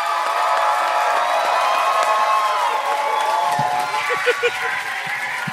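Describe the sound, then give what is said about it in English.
Audience applause and cheering as a guest comes out on a live show, nearly a standing ovation: a dense, steady roar of clapping and excited crowd voices that stays loud throughout. “You got an almost standing ovation. I know. People jumping out of their seats.”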